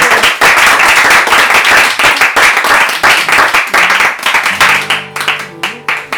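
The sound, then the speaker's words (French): Loud, sustained applause from a concert audience gives a performer an ovation on leaving the stage, dense clapping that later thins into scattered, separate claps. “vous allez la couronner d'une sortie ovationnée. Bravo!”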